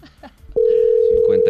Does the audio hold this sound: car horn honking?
no